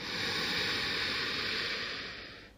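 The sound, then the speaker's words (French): A long, steady breath during a guided breathing exercise, an airy hiss held for about two seconds before tapering away into quiet. “Expirez, relâchez naturellement. Encore. Inspirez, montez”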